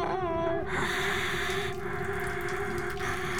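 Heavy, raspy breathing: a continuous hissing, wheezy rasp that opens with a brief tonal edge, then holds steady with a couple of slight dips where breaths turn.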